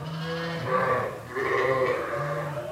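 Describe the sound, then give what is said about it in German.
Sheep bleat in a barn that houses around 600 sheep and a few dozen goats near Augsburg, Germany. Several loud, wavering calls overlap with brief dips between them. “600 Schafe und ein paar Dutzend Ziegen leben hier unter einem Dach”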